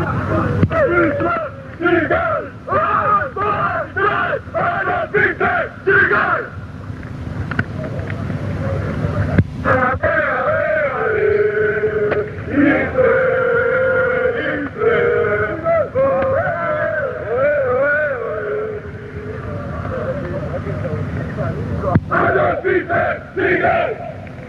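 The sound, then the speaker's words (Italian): Atalanta football ultras of the Brasato subgroup of the Brigate chanting together, a loud, rhythmic mass of male voices in repeated phrases, with choppy shouted bursts at the start and end. “questo è uno dei cori più beceri, li sento, li riconosco anche le voci di chi li fa, sono fatti proprio dal gruppo Brasato, che era un sottogruppo delle Brigate.”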